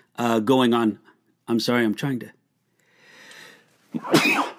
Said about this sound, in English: fight back a sneeze. That's very rude, but you know how terrible that is when you feel the sneeze coming on.